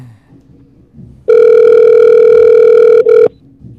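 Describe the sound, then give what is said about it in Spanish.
A telephone dial tone while a call is placed: a loud, steady, unbroken pitched tone lasting about two seconds, with a brief dip just before it cuts off. “Estamos llamando.”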